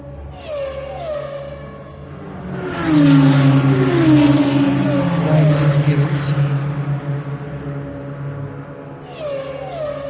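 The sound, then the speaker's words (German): Race car driving flat out on the longest straight of a circuit at around 280 to 290 km/h, its engine note rising in repeated gear-shift sweeps, then swelling into a louder stretch with falling pitch before more rising shifts. “Das ist die längste Gerade an der Strecke und dort werden wir wahrscheinlich am schnellsten fahren, ich schätze 280, 290.”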